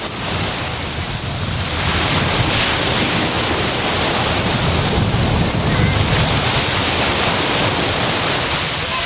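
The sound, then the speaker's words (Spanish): Sea waves break on the shore of Playa de la Charca in a choppy sea with low waves, a steady loud rush of surf mixed with wind noise throughout. “Tenemos el mar movidito y, aunque no hay olas muy altas, y el sonido del oleaje es el siguiente. Acercamos el micrófono a la orilla de la playa de la Charca.”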